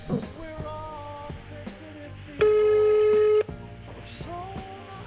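A single telephone ringback tone from an unanswered call, one steady mid-pitched beep lasting about a second that stands out clearly among softer tonal sounds before and after it.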